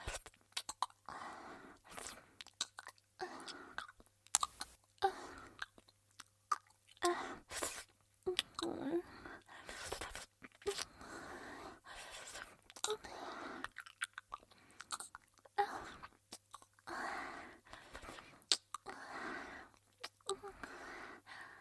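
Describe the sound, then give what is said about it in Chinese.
Soft, wet chewing of home-cooked chicken, with many quiet smacking and squishing bites in an irregular rhythm that continues throughout. “好吃吗？阿姨做的鸡肉，嗯，好吃呀，那就多吃一点”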